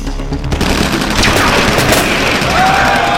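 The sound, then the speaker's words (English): A dense, loud barrage of gunfire from soldiers firing on monks, with sustained, overlapping machine-gun bursts and no break throughout. “The monks dashed left and right to avoid the deadly barrage of bullets, but it was no use.”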